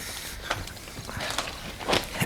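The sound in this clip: Footsteps walking on, several soft, muffled steps in an uneven rhythm over a steady background hiss, with no voices.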